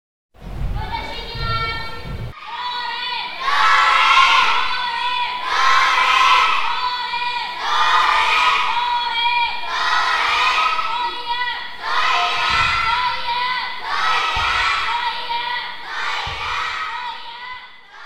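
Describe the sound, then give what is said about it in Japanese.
Children from a primary school taiko drumming club shout kakegoe calls together during warm-up in a school gymnasium, giving many loud, high-pitched unison shouts in a steady repeating rhythm after a short lower-pitched opening. “準備運動は体を動かすだけでなく、掛け声の練習もありました。”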